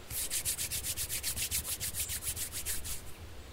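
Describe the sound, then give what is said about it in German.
Palms rub briskly against each other in many quick, even strokes. The dry, swishing friction keeps a steady rhythm and fades slightly at the end. “Reiben Sie Ihre Handflächen aneinander”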